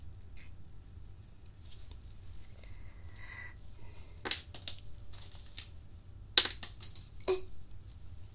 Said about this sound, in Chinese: 笔弄掉，见一下，掉哪儿去了？